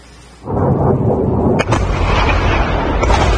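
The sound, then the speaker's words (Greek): Missiles striking a US air base in Jordan: after a brief quiet start, a loud, heavy rumbling blast begins and roars on, with one sharp crack partway through. “Είναι η στιγμή που σύμφωνα με ιρανικά μέσα ενημέρωσης πύραυλοι χτυπούν αεροπορική βάση των Ηνωμένων Πολιτειών στην Ιορδανία, σκοτώνοντας δύο Αμερικανούς στρατιώτες.”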